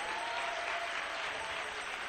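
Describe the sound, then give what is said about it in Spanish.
Dense, sustained applause from a church audience clapping for the King, a steady even roar of many hands with no pauses. “Dale un aplauso al Rey.”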